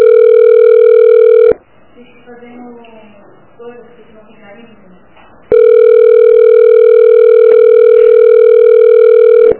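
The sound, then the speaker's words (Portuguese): A loud, steady telephone tone sounds after a dropped phone call. It breaks off into a quieter gap for a few seconds, then resumes unchanged. “Oi, a ligação caiu.”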